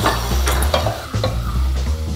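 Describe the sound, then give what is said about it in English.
Lamb sizzles steadily in a hot pan while a wooden spoon stirs it, with soft scraping knocks over the constant frying hiss and no talking. “Then we can put our lamb in there too. Okay. And if you want to get the wooden spoon and give that a stir”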